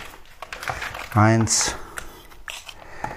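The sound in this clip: Crinkling and rustling of wet pet food bags being handled, with a few short crackles and a brief burst of louder crinkle in the middle.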